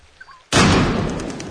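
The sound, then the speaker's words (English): A single rifle shot fired at turkeys in the snow: one sudden loud crack after a quiet moment, followed by a long rumbling tail that fades slowly. “Ada, with rifle poised, skillfully takes aim.”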